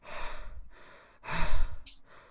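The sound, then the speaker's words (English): Heavy breathing into a microphone after walking a dog: a few loud, airy exhalations and inhalations with soft gaps between them, heard alone with no talk. “I'm heavily breathing into the mic.”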